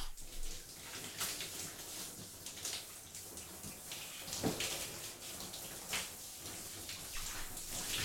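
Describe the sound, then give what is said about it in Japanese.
Warm water poured for washing runs in a faint, continuous splashing trickle, a steady watery hiss with small irregular spatters throughout. “少しお湯を当てますね。”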